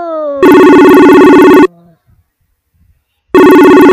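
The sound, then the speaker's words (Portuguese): A telephone rings as a call is placed to a grandmother: two long, loud, bright ringing tones separated by a stretch of near silence. “Vamos ligar pra vovó Raquel. Vamos ligar pra vovó Raquel. Tcharam! Ligando!”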